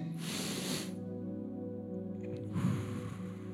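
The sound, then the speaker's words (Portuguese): A group breathes in deeply together, a breathy rush of about a second, then holds in near-quiet before a long shared exhale. A steady low hum runs underneath. “Agora a gente vai respirar fundo. Vamos puxar o ar, segurar um pouquinho e soltar todo mundo junto, tá bom?”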